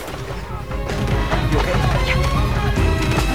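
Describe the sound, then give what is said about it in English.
Gunfire erupts as armed men surrounding a courtyard open fire and a handgun shoots back. Many sharp, cracking reports and impacts pile up over a loud, dense background from start to end. “Surrounding the courtyard, Cohen's men open fire. Ahmed takes a hit while Yusef pulls out a handgun and returns fire.”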